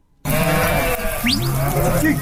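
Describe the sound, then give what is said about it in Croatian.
Sheep bleating from a flock of about 500 animals being herded across country, with several wavering bleats of differing pitch over a dense, continuous background of the flock. “Muhamed Tutnić iz Željeznog polja na područje Doboja stigao je sa stadom od 500 ovaca.”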